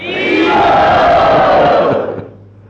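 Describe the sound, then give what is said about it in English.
A crowd chants "Hari Bol" together to welcome a visiting Vaishnava monk: one loud, sustained shout of many voices lasting about two seconds before it tails off. “Let us welcome him by saying Hari Bol.”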